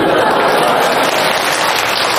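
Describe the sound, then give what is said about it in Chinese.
Audience applause at a Tianjin crosstalk comedy show rolls on as a steady, dense patter of many clapping hands, dipping slightly midway before continuing. “哎，感谢您的掌声鼓励吧。”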